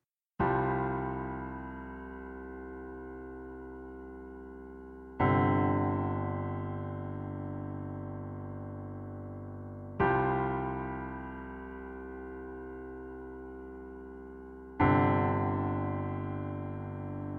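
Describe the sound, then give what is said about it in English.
Four low suspended chords on a piano, each struck firmly and left to ring for several seconds while slowly fading, evenly spaced and alone, with a deep, unresolved feel. “we get just suspended chords, and they're kind of lower. And that also gives you this deep feeling of a lack of resolution. It sounds like this on the piano”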